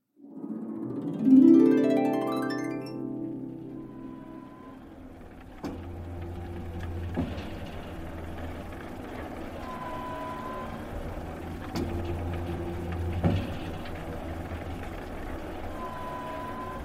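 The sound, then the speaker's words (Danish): A huge pump pulling oil up from the ground starts with a rising mechanical whine. It settles into a steady low drone, broken by a few periodic clanks. “Hvad er det, der larmer sådan? Det er den der pumpe, de hiver olien op af jorden med. Den er kæmpestor.”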